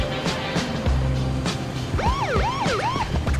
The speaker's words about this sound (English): A cop car arrives.